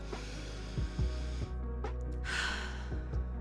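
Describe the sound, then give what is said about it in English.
A deep breath: one soft, airy burst of breathy noise midway through, over a steady low hum, with no talk. “let's take a deep breath”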